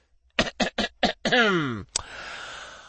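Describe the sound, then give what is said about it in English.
A person clears their throat in four short, rough bursts, then gives a longer voiced sound that falls in pitch, followed by a sharp click and a faint lingering hiss. “I cleared my throat and raised my voice.”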